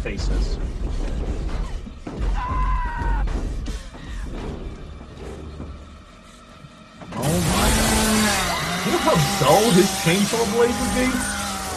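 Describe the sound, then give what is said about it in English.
A chainsaw biting through metal bursts in as a loud, harsh, dense grinding roar after several seconds of people talking, and it keeps going strongly to the end. “Cutting through metal. Yes. Oh my God. I don't even know how it's able to do that.”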